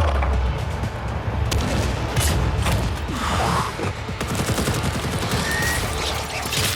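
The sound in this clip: Rapid gunfire in a video game firefight against aliens, with dense, continuous shots and bursts crackling loudly through the whole stretch, no talking heard.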